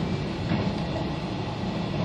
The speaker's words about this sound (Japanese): まもなく久留米に到着いたします。